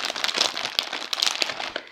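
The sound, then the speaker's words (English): A thick plastic bag holding several days' worth of packed food crinkles and crackles in a quick, irregular run of many small, sharp rustles. The handling is fairly quiet and has no talk over it. “It's packed in this thickish plastic bag.”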